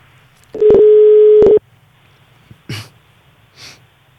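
A telephone ringback tone plays while a caller waits for an answer: one steady, buzzing tone lasting about a second. Quiet line hiss follows, with a few faint clicks and breath-like noises.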